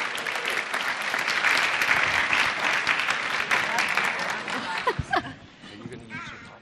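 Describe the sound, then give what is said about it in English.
Audience applause for a woman invited up to speak, a dense, steady wash of many hands clapping for about five seconds before thinning out into scattered claps. “So let's give her a hand too.”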